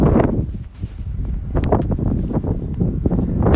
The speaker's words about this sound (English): the wind is letting me know it's time to let you go